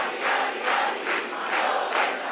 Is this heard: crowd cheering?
yes